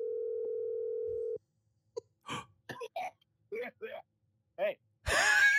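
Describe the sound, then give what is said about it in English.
A phone call ringing while waiting for someone to answer: one steady ringback tone about a second and a half long, followed by people talking. “Come on, Jonah, pick up.”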